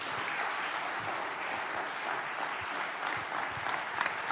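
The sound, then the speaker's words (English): Applause from a church audience welcoming a guest pastor, a steady wash of many hands clapping at a moderate, even level throughout. “And as he comes, give him a great big hand.”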